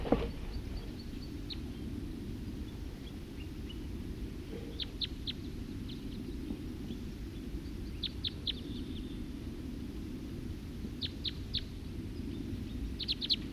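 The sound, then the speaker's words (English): Wild birds calling: short, high, faint chirps in quick clusters of three or four, repeated several times over a steady low rumble, with no talking. “Stop. Wild birds.”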